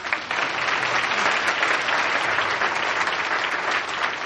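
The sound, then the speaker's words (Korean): A church audience applauds for the children, a full, continuous wash of clapping held at an even level from start to finish. “그 주부 어린이들 위해 소리 박수 한번 쳐주십시오.”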